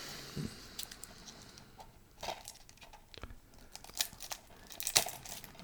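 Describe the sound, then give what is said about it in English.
A plastic wrapper crinkling as a case is unwrapped, with irregular crackles and rustles punctuated by a few sharper snaps. “would you be so kind as to unwrap the case?”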